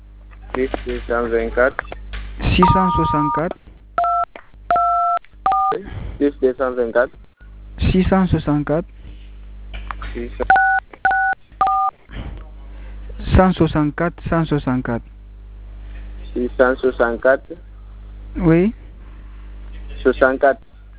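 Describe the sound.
Telephone keypad tones sound as a number beginning with +224 is entered for a phone's message centre. Short paired beeps come in two small groups amid steady talk between two people.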